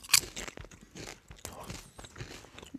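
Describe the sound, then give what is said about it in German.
Basil-flavoured potato chips are bitten and chewed, giving a few crisp crunches followed by softer, irregular chewing sounds, fairly faint throughout. “Die Chips schmecken nach Basilikum. Okay, ich probiere dann auch mal.”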